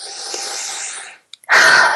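A big deep breath taken during a face-tapping exercise: a long airy inhale, a brief silent pause, then a forceful, loud breathy exhale.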